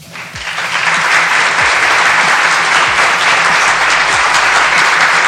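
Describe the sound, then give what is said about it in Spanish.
Sustained applause for a Puerto Rican rock artist whose album won a Latin Grammy: many hands clapping in a dense, steady roar that swells in the first second and then holds level and loud, with no voices. “Un aplauso que se merece el artista puertorriqueño”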